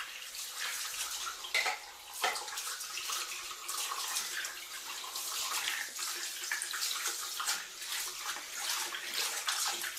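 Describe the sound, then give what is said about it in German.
Water runs from a tap while a washbasin is cleaned, a continuous hiss of flowing water with a few brief splashes and clatters early on. “Dann würde ich jetzt noch das Waschbecken sauber machen.”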